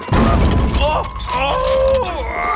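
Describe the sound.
Crystal glasses and porcelain shatter aboard the pirate ship Jolly Roger as it rocks after being rammed. A loud crash opens, followed by clattering debris and groaning, sliding tones.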